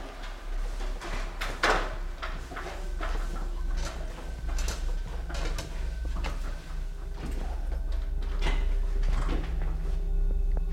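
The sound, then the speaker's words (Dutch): Ceiling hatch above a bed swinging open and a folding ladder unfolding: a few knocks, scrapes and clunks of varying strength over a steady low hum, with no voices. “Het luik gaat open en er komt een opklapbare ladder tevoorschijn.”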